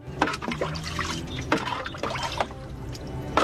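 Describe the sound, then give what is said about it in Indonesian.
Water poured from a clay jar splashes and trickles without a break, with irregular gurgles and small splashy bursts throughout. “Bagus, sekarang tolong tambahkan lagi airnya.”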